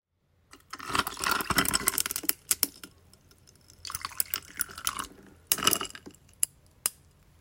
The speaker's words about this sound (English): So I'm guessing you must have poured water and ice at some point in your life then.